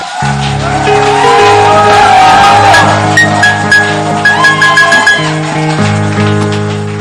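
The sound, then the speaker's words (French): A church audience cheers and acclaims during a French-language worship service, with loud shouts and whoops over sustained music that rise and fall in bursts before the music settles near the end. “Waouh, est-ce qu'on peut acclamer?”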